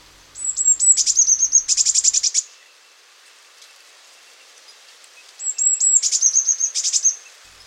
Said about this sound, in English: So if you learn that, you'll start picking up blue tits all over the place, especially in the spring and the breeding season.